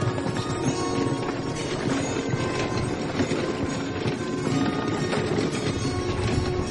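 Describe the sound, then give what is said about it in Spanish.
Horse hooves clip-clopping as a horse-drawn stagecoach travels along a forest road in a Western, a steady, dense and fairly loud clatter that runs without pause, with no voices. “Una diligencia cabalga por un camino que discurre por el bosque.”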